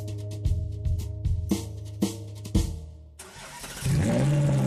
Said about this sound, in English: Start up your crimson Ferrari on the street and watch the heads turn.